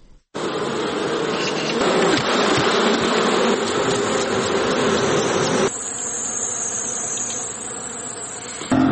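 Honeybees buzz steadily at a bee farm in Helmand, a dense, continuous drone that holds for the whole stretch and drops slightly in loudness partway through, with no voices.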